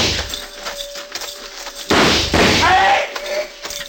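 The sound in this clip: Gunfire during a frontier shootout as lawmen move in and keep firing: two loud, sharp bursts break out after a quieter stretch, with voices heard around them.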